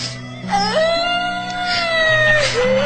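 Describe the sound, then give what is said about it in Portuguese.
A woman cries in a high, wavering wail that rises and falls over a steady low tone, with short breaks between the sobbing phrases. “Para de chorar e me conta, me conta. Ai, amiga, não chora.”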